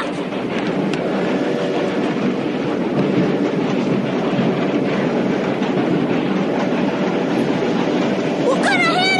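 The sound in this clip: Roaring noise of a moving train with a caboose, a loud, steady rumble with clickety-clack rattling that runs unbroken through the whole stretch.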